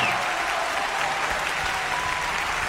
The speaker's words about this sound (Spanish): ¡Aplausos grandes para ella!